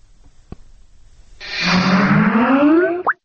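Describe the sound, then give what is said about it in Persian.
Skype computer program startup sound: a single bubbly electronic chime about a second and a half long whose pitch glides upward, ending in a short bright blip, after a faint click. “این صدای باز شدنی برنامه کمپیوتری اسکایپ است که به هر شخص امکان میدهد بی پول با دیگران در تماس تلفنی شود.”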